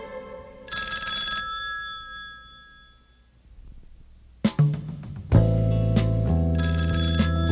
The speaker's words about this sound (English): It's the sound of a telephone ringing.